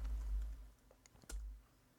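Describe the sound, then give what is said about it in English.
Soft keystrokes as a password is typed on a computer keyboard: a few faint, scattered clicks over a low, steady hum. “In my case, my private key is protected with a password, so I type that in.”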